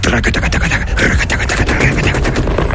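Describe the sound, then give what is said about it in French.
A volley of gunfire opens at an execution in a courtyard, a dense, loud barrage of rapid cracks that merge into one continuous roar and never pause. “J'entends une salve de tir comme je n'en ai plus jamais entendu.”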